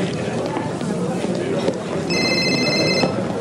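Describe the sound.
A cell phone rings with a short burst of high, clear electronic tones near the end, heard faintly under talk and steady background noise.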